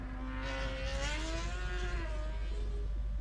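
Racing engines whine as machines accelerate out of a corner on a race circuit. The fairly faint, continuous harmonic drone climbs in pitch and then holds steady.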